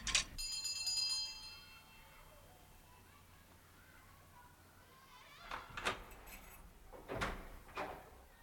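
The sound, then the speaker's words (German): A pull-bell at the door of an institute rings with a bright metallic tone that fades within about a second. A quiet stretch follows, then a few faint clunks and rattles. “dann fasst sie sich ein Herz und zieht die Klingel des Instituts.”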